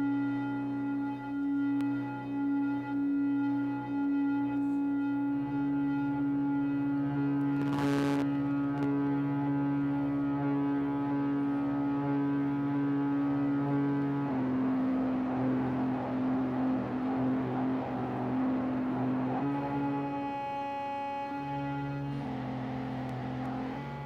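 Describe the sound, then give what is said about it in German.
A sustained, harmonically rich synth-like drone treated with a delay effect and heavy overdrive, holding steady with a few abrupt shifts in tone and one brief noisy burst partway through, with no voices. “Und jetzt mal noch ein bisschen das Delay dazu. Das kannst du auch komplett richtig geil übersteuern.”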